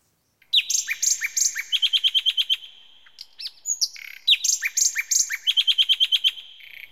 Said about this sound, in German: Die Vögel hier im Garten werden immer mehr. Die müssen hier weg. Ist nur ein kleiner Vogel.